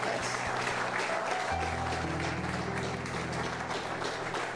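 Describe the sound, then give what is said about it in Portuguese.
Applause during a church service, continuous dense clapping that runs throughout, joined partway by sustained low musical tones underneath. “Hallelujah. Come on, palmas para o Senhor.”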